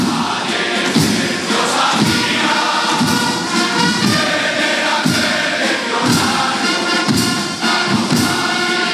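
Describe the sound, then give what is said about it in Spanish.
Loud, dense crowd noise during the legionnaires' shoulder-borne transfer of the Cristo de Mena statue in Málaga on Holy Thursday, with heavy, evenly spaced thuds beating about once per second throughout. “Así se producía hace unos minutos el traslado del Cristo de la Buena Muerte, conocido como el Cristo de Mena, a hombros de los legionarios, desde la iglesia de Santo Domingo a su casa de la Hermandad en Málaga.”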